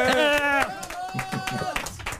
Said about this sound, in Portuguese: um aplauso para vocês próprios, faz favor.